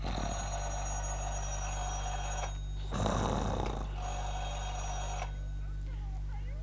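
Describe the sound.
Telephone bell ringing in a home, in a few long bursts with a steady low hum underneath and no talk.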